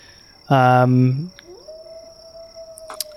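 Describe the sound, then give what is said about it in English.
A coyote howl: a thin, clear tone that slides upward and then holds steady and fairly quiet. Just before it comes a louder, brief harmonic wailing cry that falls away at its end. “I don't like this. The coyote. Oh, it scares me.”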